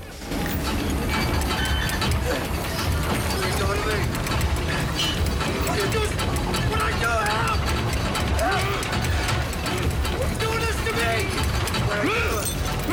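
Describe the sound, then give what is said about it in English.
A winch winds a chain around a metal shaft, keeping up a loud, continuous ratcheting clatter and grinding gear noise throughout. Voices are heard over the machinery. “Both men pull against the chain as the winch winds it around a metal shaft, pulling them towards it.”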